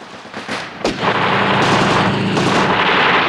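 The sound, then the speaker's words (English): Submachine guns and machine gun turrets fire during an action scene on an oil rig in a James Bond film. A sharp crack near the start gives way to a loud, continuous roar of heavy gunfire. “As the choppers buzz past, Blofeld's guards open fire with the machine gun turrets. Guards in black fire their submachine guns.”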